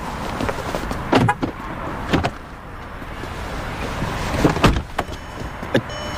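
Someone gets into a car, with a few sharp thumps and clicks of a car door closing amid soft movement and low background noise.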